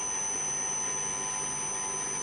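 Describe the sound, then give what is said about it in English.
A recently repaired heat pump that was fixed with salvaged old transmitter parts runs with a steady, unbroken whirring drone. High, thin whining tones sit on top of the drone, and no voices are heard. “This thing's like 10,000 euro heat pump with parts literally out of a 40-year-old TV transmitter.”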